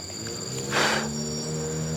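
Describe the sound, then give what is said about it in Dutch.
A fly buzzing beside a river, a continuous droning hum with steady tones that swells briefly louder near the middle and then settles back, with no voices. “Deze vlieg houdt me ook niet met rust.”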